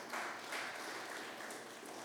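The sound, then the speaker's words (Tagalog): Applause from a church audience comes as a faint, steady wash of many hands clapping, even in level throughout with no voices standing out. “Kaya palakpakan po natin ang Lord.”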